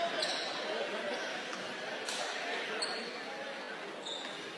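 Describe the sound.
A basketball bounced a couple of times before a free throw in a boys' game, Westwood against Kingsford; soft, dull bounces sit under crowd murmur and a voice talking.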